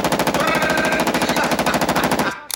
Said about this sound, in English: Now this here is a Steyr AUG. Steyr AUG's a bad motherfucker. Listen.